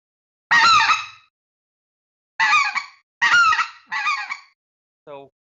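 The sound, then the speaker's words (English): A hand-blown game call imitates the in-flight yodel of speckle-bellied geese with four loud, high, warbling honks in an uneven rhythm. The first stands alone, the other three come close together, and a short, softer tonal note closes the sequence. “Your yodels are the sounds you'll hear specks make whenever they fly, and those sound like this.”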